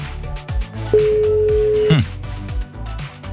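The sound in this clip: A telephone line ringing before a call is answered: a single steady, mid-pitched ring tone lasting about a second, standing out from the surrounding background sound.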